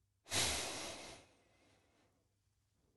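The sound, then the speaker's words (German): A single breath drawn in through the nose during a paced breathing exercise: a strong, airy rush starts abruptly, then tapers off over about a second and a half into quiet, with no talking. “Und jetzt vier Sekunden durch die Nase einatmen.”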